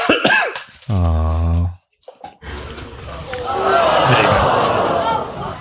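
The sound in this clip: A person coughs and clears their throat after a nut gets stuck there. Short harsh bursts are followed by a held vocal tone, then a longer stretch of rough, noisy sound.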